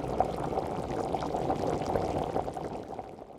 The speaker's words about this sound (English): Kodda tied him with a rope to the nearest tree and started to heat oil in his large pot or cauldron.